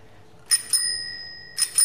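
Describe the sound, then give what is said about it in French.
The bell on a 1960 bicycle, recently fitted by a craftsman, gives two bright double dings, the high metallic tone lingering between them. “Donc je suis très contente de voir ce vélo de 1960. Et puis la sonnette marche normalement, puisque l'artisan me l'a mise.”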